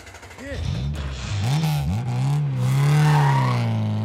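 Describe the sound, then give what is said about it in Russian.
A car drives away, its engine revving and accelerating into a steady drone that swells in loudness toward the end. “Родственники сели в машину и уехали.”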